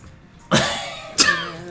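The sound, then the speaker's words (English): Two coughs: a harsh, fairly loud burst, then a second sharper cough about half a second later, each fading quickly against a quiet background. “You're like, who the hell is that coughing?”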